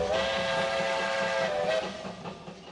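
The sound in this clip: Train whistle sounding one long, loud, steady harmonic blast with a hiss beneath, then dropping away and fading near the end.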